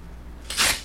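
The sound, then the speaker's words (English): Paper tearing as a swap shop listing is ripped in half: one short, crisp ripping burst that swells and fades within a fraction of a second over a faint steady hum. “Do you want to hear the wonderful sound of a swap shop listing being ripped in half?”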